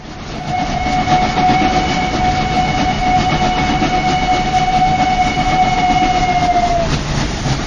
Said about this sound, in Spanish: Atención, atención. Tren procedente de Misterios y Leyendas efectuará su entrada en la vía 4, final de trayecto.